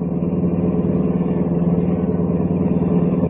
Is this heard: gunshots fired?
no

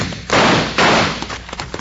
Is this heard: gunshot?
yes

